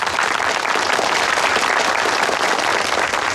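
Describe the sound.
Audience applause welcoming a newly appointed guerrilla brigade leader: dense, steady clapping from many hands that holds at an even, fairly loud level for the whole stretch.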